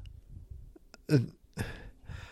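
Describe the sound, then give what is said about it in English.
A dog makes a throw-up sneeze, a couple of abrupt, snorting, retching bursts separated by a short pause over quiet background. “That's our dog doing a throw up / sneeze.”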